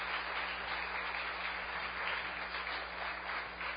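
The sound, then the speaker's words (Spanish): Steady, dense applause from a church audience during a sermon, a continuous wash of clapping that holds at an even level for about four seconds with no voices over it. “Dale ese aplauso fuerte al Señor nuestro Dios.”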